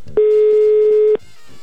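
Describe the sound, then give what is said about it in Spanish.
A steady telephone tone sounds while a call is being placed: one unbroken, even-pitched tone lasting about a second, heard alone and stopping abruptly. “Estoy intentando marcar.”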